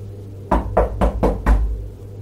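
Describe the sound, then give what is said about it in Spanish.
Five firm knocks strike a door in an even, quick rhythm over a low steady hum, followed by silence. “Alguien tocó a la puerta”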